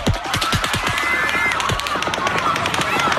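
Rapid gunfire recorded during a mass shooting in Las Vegas: a fast, uneven string of many sharp cracks with a shifting cadence, loud and continuous throughout.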